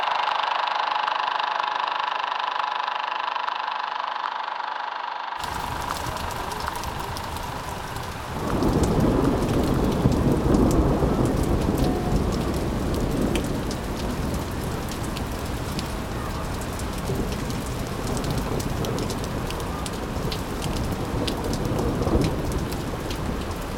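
Heavy rain with thunder: after a few quieter seconds, a dense hiss of rain bursts in abruptly, then a deep rolling thunder rumble swells and keeps growling under the steady downpour.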